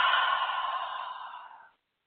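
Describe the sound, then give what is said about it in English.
One long, soft, breathy exhale released during a guided breathing moment in a spiritual meditation. It lasts under two seconds, stays fairly quiet throughout and fades into silence. “Breathe, family. And release.”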